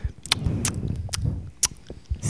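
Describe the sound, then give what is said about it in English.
Lip smacking: a person's wet mouth clicks and smacks, several short sharp pops spaced irregularly over soft, low mouth noise, with no talking. “Like, yeah, you used to fucking smack your lips like...”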